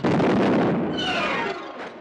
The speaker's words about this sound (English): The machine explodes.